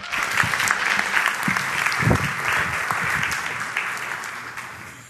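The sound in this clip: An audience at a church service applauds to welcome a speaker with steady, dense clapping that holds for several seconds and then tapers off at the end.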